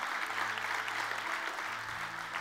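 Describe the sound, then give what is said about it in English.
A church audience gives a round of hand claps during a service: dense, steady applause from many people, with faint low sustained tones beneath, easing slightly toward the end. “Can we give the Lord a good hand clap today?”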